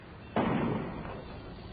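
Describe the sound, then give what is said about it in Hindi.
A single gunshot rings out during a city riot: one sudden, fairly faint crack followed by a short fading tail. “क्यों जी, ये गोली की आवाज है? गोली की आवाज?”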